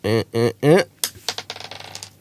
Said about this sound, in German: Wir sollten würfeln. Ja, genau. Soll ich immer mal würfeln einfach für die nächsten?